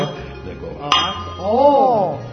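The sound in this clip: A crystal wine glass gives one sharp, bright clink as it is struck, ringing briefly amid a talking voice that continues just after.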